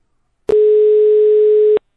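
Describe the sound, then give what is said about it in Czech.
A telephone dial tone sounds while a call is being dialed: one steady, unbroken mid-pitched tone lasting just over a second, starting and ending with a sharp click, with no other sounds. “Vytáčím.”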